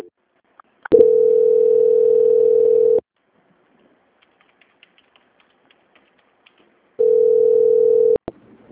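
Steady telephone tone sounds while a call about a consigned-credit loan is transferred to a quality department: two long, unbroken mid-pitched tones, the first about two seconds and the second just over one, separated by near-silence with faint scattered clicks.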